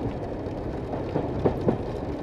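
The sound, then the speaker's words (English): A train rides the oldest mile of track in the U.S.: a steady rolling rumble of the wagon on the rails, with a few sharp clacks near the end. “This is the oldest mile of track in the U.S. And we are riding it to the stable station.”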